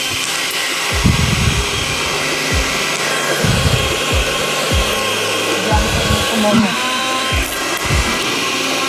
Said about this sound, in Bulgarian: Да пускам блендър.